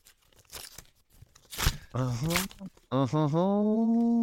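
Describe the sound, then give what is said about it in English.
A greeting card envelope is torn open in a couple of short, sharp paper rips, with a voice exclaiming around the tearing. “I've got you a card first, ooh, so you can open that.”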